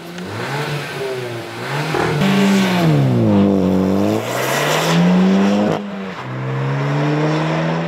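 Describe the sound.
A car engine revs hard on a race track, its loud tone climbing and falling in several sweeping surges, with brief dips between pulls and a continuous mechanical roar throughout.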